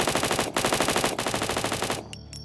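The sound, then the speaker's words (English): Rapid automatic fire from a Tommy gun shooting into dark woods. A loud, dense stream of shots runs with two brief breaks, then stops abruptly, leaving a faint ringing tail. “He pointed his gun at the dark woods and started shooting.”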